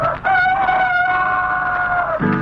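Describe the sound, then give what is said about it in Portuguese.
A rooster crows once in a long, sustained, strident call that holds a fairly even pitch for about two seconds before breaking off abruptly. “A gente pensa que ao romper do dia, o galo canta pra saudar o sol.”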